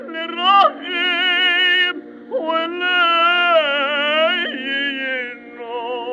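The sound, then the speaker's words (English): A cantor sings synagogue chant with the sobbing vocal ornament, holding vibrato-rich tones broken by a few short, choked catches in the voice between phrases. “It's that little sobbing sound.”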